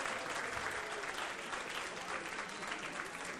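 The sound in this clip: Audience clapping at a live event as a guest is welcomed up to speak, a steady, even patter of many hands, fairly faint and sustained throughout.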